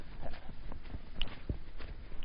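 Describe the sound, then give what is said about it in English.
Footsteps crunching through snow on a winter walk across mowed ground, a series of soft, quiet crunches at an uneven walking pace with no talk. “I don't know if people are going to like that snow crunching noise on there, because it's pretty loud”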